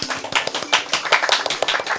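Applause made of many quick, sharp claps in an irregular patter, fairly loud and bright, with no voices over it.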